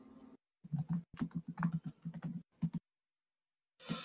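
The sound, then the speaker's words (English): Typing on a computer keyboard: many quick clattering keystrokes in dense clusters, then a pause before a final short burst of keys. “Let me type that in for you guys.”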